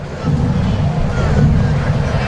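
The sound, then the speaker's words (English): A sudden gust of wind sweeps across a baseball ballpark, heard as a steady, loud, low rumbling buffet that lasts about two seconds without easing. “Wind picks up all of a sudden. Unfurling the flags out in right center field. Little gust into those flags out in right center.”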